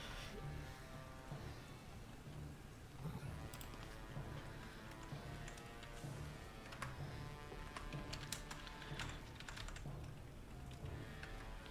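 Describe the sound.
Computer keyboard typing as a dice roll is entered during a tabletop role-playing game session: quiet, irregular clicking keystrokes over a faint steady hum, with no clear talk.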